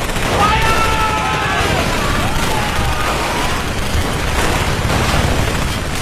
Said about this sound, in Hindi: भारतीय सैनिकों ने उन पर light machine gun, rifles, mortar और ग्रेनेड से हमला कर दिया